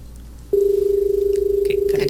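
A steady telephone line tone sounds as the next call is connected. A single low, buzzing pitch begins abruptly after a short near-quiet pause and holds unbroken to the end, with a few faint noise bursts near the close.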